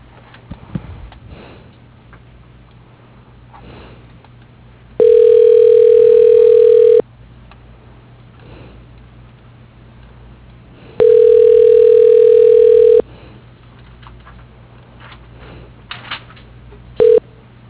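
A phone line gives ringback tone while a call is transferred to a veterinary hospital administrator's voicemail. Two steady low tones last about two seconds each, about four seconds apart, over a faint line hum. A few clicks and a short tone follow at the end.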